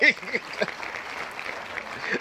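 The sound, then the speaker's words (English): Applause follows a request for a round of applause, a steady patter of clapping that runs to the end, with a brief voice near the start. “Can we get a round of applause for niggas starting on time, please?”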